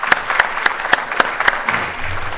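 Clapping in the Missouri Senate chamber welcomes the doctor of the day, an anesthesiologist from Creve Coeur: a steady run of six sharp, evenly spaced claps, then a softer wash of room noise.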